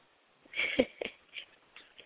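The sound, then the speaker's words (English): A phone-in caller's deep, nervous breath, heard over a narrow telephone line as a few wheezy, breathy bursts that fade out. “I heard you take that deep breath afterwards. It's all right. I'm nervous every time.”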